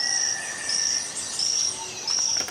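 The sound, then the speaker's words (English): A poison frog calling: four high, buzzy trilled bursts at an even pace, each lasting a fraction of a second, with faint chirps and a steady hiss between them. “And this is also the sound of a poison frog.”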